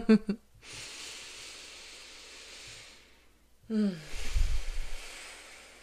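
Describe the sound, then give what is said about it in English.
A person takes slow, deep breaths: two long, airy, hissing breaths separated by a short pause. The breathing is soft and faint, with no talking. “Let me take a breath.”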